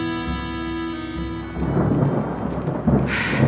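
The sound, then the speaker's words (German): Rain and storm noise: a broad, steady rushing roar with low rumbling swells in after a held tonal passage, then surges louder near the end. “Regen und Sturm.”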